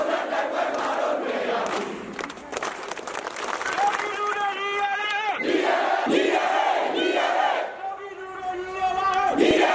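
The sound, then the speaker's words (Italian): Large protest crowds fill the squares of Burmese cities, chanting and shouting in unison. The loud, continuous mass of voices is broken by rising cheers and rhythmic calls throughout. “suoni che avete sentito e che ormai siete abituati ad ascoltare sono quelli delle piazze delle varie città birmane”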